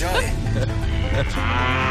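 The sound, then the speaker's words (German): Cow mooing: one long, loud, low-pitched moo drawn out across the whole moment. “Es geht doch um unsere Enjoy-Kuh. Die soll auf die Wiese machen.”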